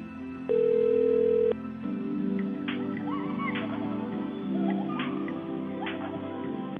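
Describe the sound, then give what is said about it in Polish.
A single steady telephone tone sounds for about a second while a call waits to connect. Softer, continuous tonal sounds with gliding notes follow for the rest of the wait. “Prosimy czekać na połączenie.”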